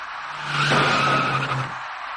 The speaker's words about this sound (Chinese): 转眼过后，出租车的前部撞上了前车的尾部，一起两车追撞的事故就发生了。